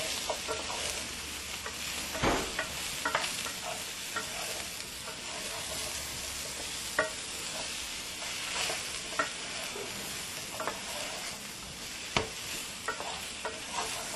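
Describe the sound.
Food sizzles steadily as it fries and browns in a pan, a dense, continuous crackle broken by occasional sharp clinks and scrapes of stirring, with no talking.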